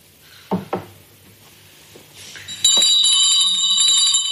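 A small hand bell rings during mass. Two dull knocks come first, then a bright metallic ringing with high overtones that holds steady to the end.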